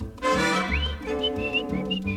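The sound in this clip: A man whistles to call his girl, a few short rising whistled notes over steady instrumental music, bright and moderately loud.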